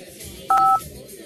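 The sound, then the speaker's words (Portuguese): A single telephone keypad tone as a phone is dialed to call home, one short, steady, loud beep lasting about a quarter second over a low background murmur. “Vai ligar pra casa de novo”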